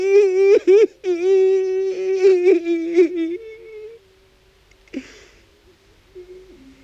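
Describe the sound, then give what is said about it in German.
A man weeps with a long wailing cry, his voice sustained and tonal and breaking off briefly a few times. It then grows fainter and lower, with a short sob-like burst midway before a quiet drawn-out moan. “Der Atem wird schneller, aus dem Mund kommt ihm ein langer Klageweibton.”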